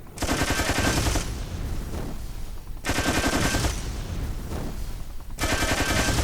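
Rapid automatic gunfire in a video game, loud and continuous, coming in three long bursts separated by brief dips in intensity, with no talk over it.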